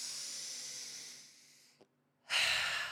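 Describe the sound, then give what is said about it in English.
A deep, breathy hiss of air during a guided breathing exercise trails off into a short silence, then a stronger, noisy breath begins and holds. “Breathe this in.”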